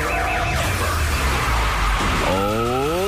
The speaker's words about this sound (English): You hear that car crash in the background?